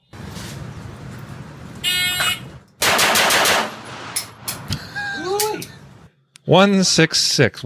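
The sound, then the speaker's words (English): A handgun drawn from a holster fires a rapid burst of sharp, loud cracks after a short electronic beep. People talk afterward. “So 5 shots from the holster, 1.66. That's 5 shots.”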